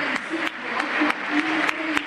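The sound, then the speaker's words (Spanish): A stadium crowd applauds as a football player is announced as a world champion. The clapping is a steady, broad wash that rises and falls slightly under a voice that continues throughout. “Ángel Correa, otro campeón del mundo. Aplausos.”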